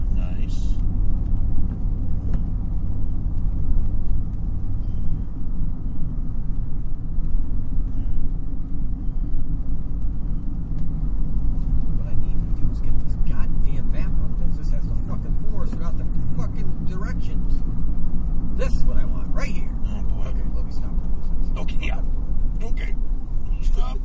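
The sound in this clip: A truck drives along a road, its cab filled with a continuous low rumble of engine and road noise that stays steady. Voices talk over the drone.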